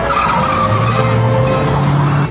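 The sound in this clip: Car tires skid and squeal through a turn, a sustained, loud, tonal screech over engine noise that holds for about two seconds before cutting off abruptly.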